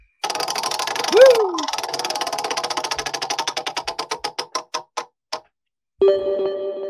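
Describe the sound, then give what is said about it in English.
A prize wheel spins with a run of regular ticks that start quick and gradually slow and spread apart until it stops. A short silence follows, then a steady sustained tone sounds alone. “spin that warm up wheel”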